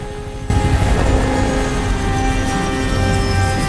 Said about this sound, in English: The helicopter lands at a large concrete compound.